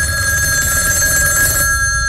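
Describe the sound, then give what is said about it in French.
A telephone bell rings as a wake-up call, a steady, bright electronic ring that holds at an even loudness for the whole clip without a break. “Wow, wow, wow. C'est le réveil par téléphone.”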